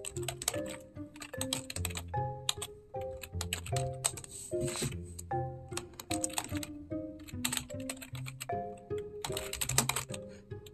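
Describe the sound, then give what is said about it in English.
Typing on a computer keyboard: a busy, continuous patter of quick clicky keystrokes with irregular rhythm, alongside tonal background music. “Let me just see what happens when I type that in.”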